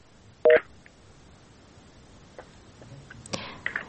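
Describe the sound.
A telephone call connects to a radio call-in show. One short, bright tone burst sounds, then quiet line hiss with faint scattered clicks and a small burst of noise near the end.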